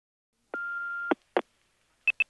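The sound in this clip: An answering machine beep before a message: a long, steady mid-pitched tone, then two clicks, then two short, higher beeps in quick succession.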